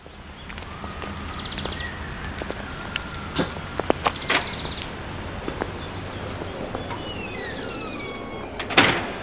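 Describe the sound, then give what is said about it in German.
Ambience of the busy entrance hall of the Raphael-Klinik hospital, a large hall full of people. A steady background wash carries scattered clicks, knocks and door sounds, with a sharp clatter near the end. “Hier ist ja viel los. Fast so viele Leute wie am Bahnhof. Die Eingangshalle der Raphael-Klinik ist ja auch fast so groß wie eine kleine Bahnhofshalle.”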